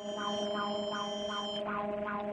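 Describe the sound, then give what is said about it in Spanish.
Mexico's seismic alert siren sounds during the second 2026 national earthquake drill, a steady electronic tone overlaid with a rapid warble that repeats in several regular pulses, loud and unbroken throughout. “en este momento está sonando la alerta sísmica con motivo de la realización de este segundo simulacro nacional 2026 organizado por el Gobierno de México”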